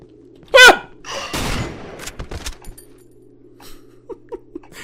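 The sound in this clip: Gunfire in a video game: a few sharp, loud shots fired in quick succession, then fainter clicks and taps.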